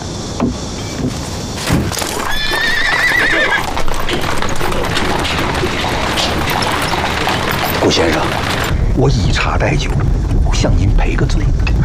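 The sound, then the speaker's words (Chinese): Hooves clip-clop steadily as a horse pulls a rented carriage, loud and continuous, with a horse's whinny early on. “来来来来，您请，给您租的马车，请。”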